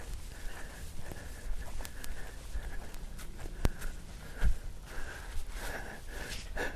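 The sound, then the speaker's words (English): A jogger running along a trail, with quick patter of footsteps and puffing, gasping breaths in a steady rhythm, fairly faint against outdoor background noise. “And here comes somebody running on the trail behind me. I'll get out of his way.”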